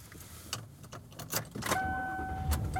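Car sounds at the start of a drive home: a few clicks and rattles like jangling keys, then a steady two-note electronic tone holding over a low hum, fairly quiet and with no talk.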